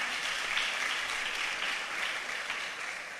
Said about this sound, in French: Est-ce qu'on peut acclamer pour la sœur?